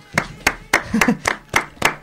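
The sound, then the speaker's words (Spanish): Hand claps in a slow, even rhythm, each one sharp and separate, with a faint voice briefly heard partway through. “Estamos en tres, el aplauso no mola mucho.”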